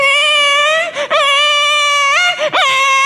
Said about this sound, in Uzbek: Chaqaloq yig'layapti, qarang.